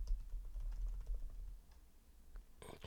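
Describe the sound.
Faint typing on a computer keyboard: a quick scatter of soft key clicks over a low rumble, with a brighter burst near the end.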